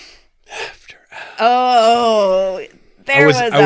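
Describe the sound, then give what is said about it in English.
A sharp, voiced inhale from a person, drawn out for about a second with a wavering, slightly strained tone. Short breathy vocal sounds come before it and another voiced burst follows. “I was mid inhale.”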